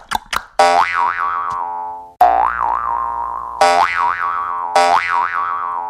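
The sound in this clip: Springy boing sounds played on a jaw harp as a hopping effect: after a couple of short clicks, four loud twanging tones follow, each starting high and wobbling as it slides down.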